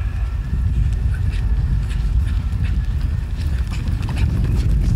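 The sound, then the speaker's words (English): Running footsteps pound a track during a foot race between a 46-year-old Hall of Fame wide receiver and a 26-year-old Chiefs running back. The footfalls form a loud, dense, continuous patter with no break from start to finish. “That is the sound of 46-year-old Hall of Fame wide receiver Terrell Owens in a foot race against 26-year-old Chiefs running back / part-time wide receiver Tyreek Hill,”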